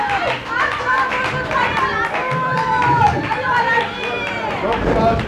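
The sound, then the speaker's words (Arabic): Cheering and applause from a crowd during a stage play, many loud overlapping shouting voices with scattered claps, continuous for the whole stretch. “تصفيق وهتافات.”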